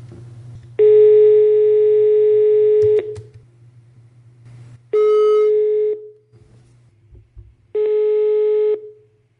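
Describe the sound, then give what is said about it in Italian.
Telephone ringback tone while a call is being placed: three loud, steady electronic beeps separated by pauses. The first lasts about two seconds and the others are shorter, all over a faint low hum. “Adesso chiamo Stefano Rosselli.”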